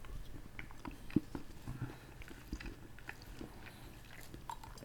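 Faint biting and chewing on a solid medium-light milk chocolate figure, with a few soft crunches and steady quiet mastication and no talk.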